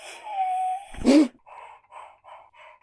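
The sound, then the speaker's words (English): A young child whimpers and squeals in fright at a spider: a thin, high, sustained whine, then a sharp, louder cry, followed by a few short, softer whimpers. “That sound you just heard was the sound of my daughter freaking out because a spider had just come down”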